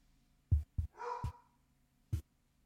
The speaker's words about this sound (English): That dog is barking so consistently that it sounds like an alarm.